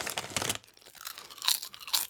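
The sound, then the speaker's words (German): Crunching of salty, fatty potato chips being chewed: a dense run of crisp crunches, then a quieter pause and a few separate sharp bites, with no talking. “Deliziöse Kartoffelscheiben mit viel zu viel Salz und viel zu viel Fett, die man auf gar keinen Fall zu viel essen sollte, die aber super gut schmecken.”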